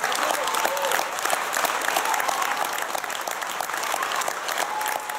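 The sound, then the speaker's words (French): An audience gives a woman politician an ovation after her speech. The applause is dense and sustained, with many hands clapping at a steady, loud level for the whole stretch. “Et comme femme d'État, je veux être reconnue pour mes résultats plutôt que mes coups d'éclat ou mes sautes d'humeur. Et là, c'est l'ovation.”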